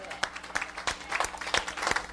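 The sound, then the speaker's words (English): An audience claps hands in praise at a church service, in a steady, rhythmic beat of moderately quiet claps with voices alongside. “Let's give them a hand clap of praise. Thank God for them. And let's give Jesus a hand clap of praise.”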